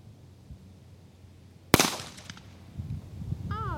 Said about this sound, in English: Well, I have shot a gun. You have fired a gun. There we go. It was loud.